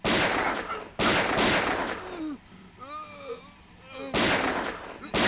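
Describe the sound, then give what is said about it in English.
Several loud gunshots ring out in bursts, with a long pause between them that is filled by agitated, shouting voices. “Die, motherfucker, deal! Fuck again, man. Shit. Shoot him again, man!”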